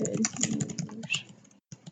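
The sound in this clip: Rapid typing on a computer keyboard: many quick, crisp key clicks in a steady patter, breaking off briefly near the end before a few more keystrokes.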